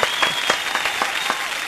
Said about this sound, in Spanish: A ver, con aplausos también.